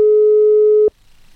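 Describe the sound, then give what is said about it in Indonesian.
A telephone tone sounds while a call tries to connect: a single loud, steady, pure beep held for just under a second, then cut off abruptly into near silence. “Oke, masih coba terhubung barengan sama Pak Alif.”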